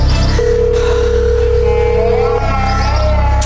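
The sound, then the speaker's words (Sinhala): A telephone ringback tone on an outgoing call sounds as one steady mid-pitched tone of about two seconds, heard over a constant loud hum. “Rings යනවා answer කරන්න”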